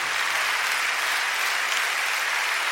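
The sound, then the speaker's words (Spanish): A church audience applauds in a dense, even wash of clapping that holds steady and fairly loud with no breaks. “¿Cuánto le dan un aplauso al Señor por esa presencia?”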